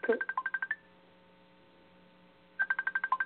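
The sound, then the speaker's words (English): Touch-tone keypad beeps as a telephone number is dialed, a quick run of short tones of shifting pitch, then a pause of about two seconds before another rapid run. “Okay, dial 1, right? And then would you go and dial 1 and it's 215?”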